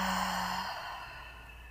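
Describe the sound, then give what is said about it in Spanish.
A single long breath exhaled through the mouth during a calming breathing exercise, a soft, steady breathy rush that fades slightly as it ends. “vamos a inhalar por la nariz. Exhalando por la boca.”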